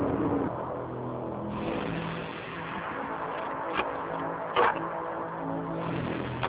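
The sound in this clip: A car driven recklessly roars with a steady, loud engine noise throughout, broken by a couple of brief, sharp knocks partway through.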